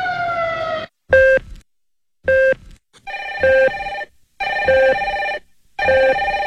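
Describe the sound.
A telephone rings in loud, repeated electronic bursts of bright, buzzing tone. Short silent gaps separate the bursts in a steady on-off pattern, with no voices.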